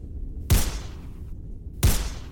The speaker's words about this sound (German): Oh komm, ich schieß ihn ab. Schieß hier, hier, ab.